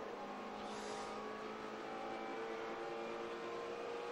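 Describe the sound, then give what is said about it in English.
Onboard race car engine in a sports car challenge race at Virginia International Raceway, climbing a hill. A loud, steady, dense engine roar holds throughout with no clear revving changes and no talk. “So let's just take in what Austin Cindric's car is doing. Going up the hill.”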